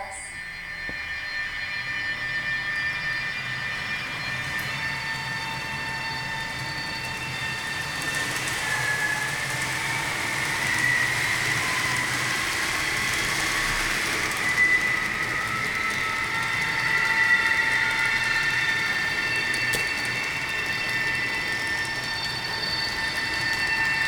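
Train powering up and moving in a train simulator video game: a continuous mechanical rumble and hiss with thin, high whining tones on top, holding a steady moderate level throughout.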